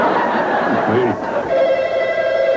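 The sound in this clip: A telephone starts ringing partway through with a steady, sustained tone under people talking throughout.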